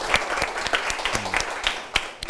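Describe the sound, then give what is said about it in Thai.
Classroom applause for a student who answered a question: a scattered patter of separate claps from a small group, fairly soft and uneven in rhythm. “นะครับปรบมือให้เพื่อนด้วยนะครับ”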